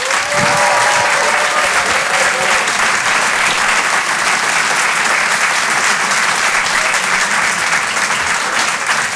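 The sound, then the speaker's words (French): Loud applause from a comedy-show audience greets a stand-up comedian. The dense, even clapping holds at full strength for about nine seconds. “Vous pouvez l'applaudir très très fort”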